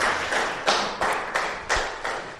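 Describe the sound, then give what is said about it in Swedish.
A few claps in a slow, fairly even rhythm as a church audience applauds its worship singers. Each clap is a sharp, bright tap that decays quickly, with short gaps in between rather than a continuous wash of applause. “Kan vi ge en applåd till de här lovsångarna?”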